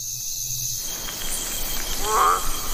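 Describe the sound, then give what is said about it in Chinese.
A male milk frog calls from its breeding pool, a single short tonal croak with harmonics sounding near the end over a continuous shrill chorus of insects. “一只雄性牛奶蛙也守护着自己的宝宝。此时，它放声鸣叫，想要吸引雌性牛奶蛙们来自己的水洼产卵。”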